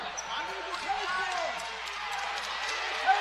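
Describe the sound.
A basketball being dribbled on court during a game, repeated bounces running steadily beneath talk and a busy background.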